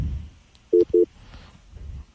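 Two short electronic beeps sound on a radio call-in phone line after the caller has hung up, evenly spaced mid-pitched tones over a quiet background hiss.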